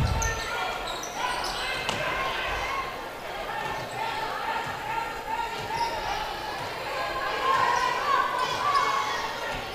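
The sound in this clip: A basketball being dribbled up top in a girls' high school game: a steady run of sharp bounces on the court under continuous talk.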